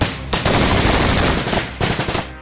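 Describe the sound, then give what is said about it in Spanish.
Sustained machine-gun fire from an ambush on agents' vehicles rattles loud and dense. The bursts come as rapid crackling volleys, broken by two brief dips in the shooting. “No terminaban de hacer el recuento de los daños cuando de nuevo se escucharon las ametralladoras.”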